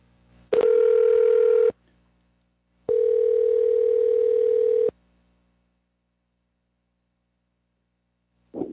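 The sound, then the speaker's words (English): Telephone tones while placing a call: two long, steady, buzzy tones separated by a pause, then a brief clipped sound right at the end; no dialing beeps stand out. “No, I dialed it wrong. I'll try again.”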